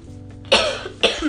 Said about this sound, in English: Sorry for my cough.